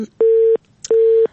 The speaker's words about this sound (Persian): متاسفانه تماس خواهر ما قطع شد. من نمی‌فهم گفتنیش چی بود و میخواست که چی بگویه.